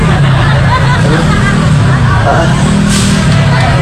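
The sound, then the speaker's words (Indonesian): Heavy low rumble of a truck passing on a road, steady and loud throughout, mixed with a murmur of voices and other traffic noise. “Liwat deui aya eta truk.”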